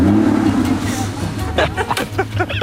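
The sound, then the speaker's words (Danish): Aston Martin sports car engine giving a deep, steady low rumble, with people talking over it in the second half. “En dejlig Aston Martin.”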